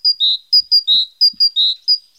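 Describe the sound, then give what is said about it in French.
A great tit sings, repeating bright, clear whistled phrases. Short high notes alternate with longer, slightly lower notes in a steady, even rhythm. The song is loud and heard alone. “Non, chers amis, il n'y a pas une mésange qui est rentrée dans le studio. Nous venons d'écouter la mésange charbonnière.”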